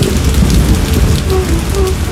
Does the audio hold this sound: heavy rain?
yes